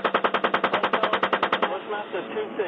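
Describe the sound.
Automatic gunfire during a military engagement rattles out in one rapid, evenly spaced burst of many sharp shots, then stops abruptly as a voice speaks over a hissing background.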